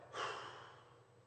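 A person exhales one breath during a guided worship breathing exercise: a soft, breathy hiss that swells quickly, then slowly fades, faint and alone.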